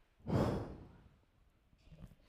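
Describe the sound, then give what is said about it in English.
A person takes a deep breath: one loud, breathy exhale that swells and fades like a long sigh, then near quiet with faint breath noise. “If you'll hold your hand up real quick in front of your mouth and go, and just take a deep breath in and breathe out.”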